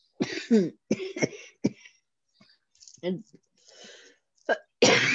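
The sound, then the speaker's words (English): Someone coughs in harsh, choking bursts, as if something is stuck in the throat. Several clusters of rough coughs and throat-clearing are separated by short silences. “Are you fucking choking on shit again?”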